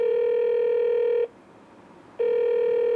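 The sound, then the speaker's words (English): Ringing tone of an outgoing telephone call on speakerphone: two long, steady buzzing tones separated by a pause of about a second, with no talk. “Now I gotta call Livvac. Put it on speaker.”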